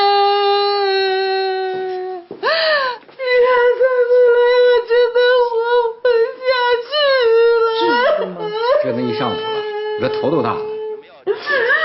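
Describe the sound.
A woman crying and whimpering in a tearful tantrum, with a long, high, sustained wail that breaks into quavering sobs and loud, choked whimpers.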